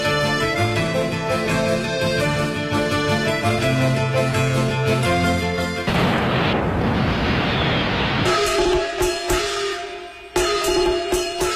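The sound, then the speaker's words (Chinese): Fireworks and firecrackers for the Spring Festival New Year burst with a loud roaring blast that follows music, then give way to many sharp, crackling pops. “烟花灿灿，爆竹声声”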